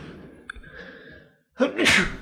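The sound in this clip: A single loud, forceful sneeze bursts out after a brief hush, sharp at its onset and trailing off in a breathy spray of noise.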